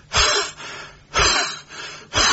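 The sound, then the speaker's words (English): A voice imitates a heavy breather on the phone with three loud, rasping breaths, evenly spaced with short quiet gaps between them. “a heavy breather, so she's out of breath as well.”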